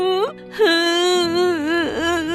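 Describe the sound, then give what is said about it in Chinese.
A young boy crying in grief, likely performed by a voice actor: a short high wail, a brief pause, then a longer wavering, drawn-out sobbing cry that dips in pitch near the end. “格拉布先生过世的消息让灵谷好伤心哦，他哭了起来。”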